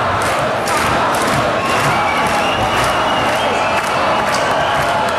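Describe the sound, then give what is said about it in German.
A dense, roaring crowd fills a festival at the Oktoberfest (Wiesn) in Munich with shouting, cheering and scattered clapping. The wall of voices stays loud and unbroken throughout. “95.5 Charivari und so wild klang das gestern auf der Wiesn.”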